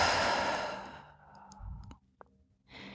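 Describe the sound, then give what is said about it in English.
A long, breathy exhale during a guided breathing exercise. It is loud at first and fades over about two seconds, then comes a brief quiet with a small click before another soft breath rises. “and then exhale”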